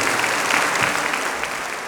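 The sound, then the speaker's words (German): Warm audience applause greeting a surprise guest on a stage show, a dense, even wash of clapping that holds steady and tapers slightly toward the end. “Aber jetzt, es ist soweit. Applaus für Maria, unseren Überraschungsgast.”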